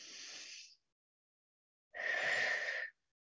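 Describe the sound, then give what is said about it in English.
Deep, slow breathing in a relaxation exercise: the soft, airy end of one long breath, a silent pause, then another full breath lasting about a second, with no talk. “take three deep, big breaths, inhaling, exhaling.”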